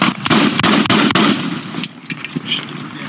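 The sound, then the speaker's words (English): Gunshots ring out in a police shootout with an armed suspect: many sharp, loud cracks in rapid bursts, densest at the start and thinning to scattered shots afterward, with no voices. “Shots fired. Shots fired. Suspect is shooting.”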